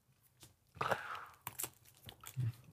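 Bread topped with black garlic being bitten into and chewed, giving several crisp, crunchy bites and tearing crackles in irregular bursts, with softer mouth sounds between them and no talk.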